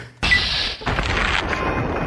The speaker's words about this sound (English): Shotgun blast to the head.